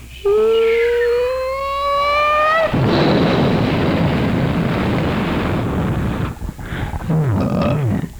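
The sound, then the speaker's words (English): A burning airplane coming down: a long whistling tone that climbs slightly in pitch gives way to a loud, sustained roaring rumble lasting several seconds. “Airplane coming. It's on fire. Oh, my God.”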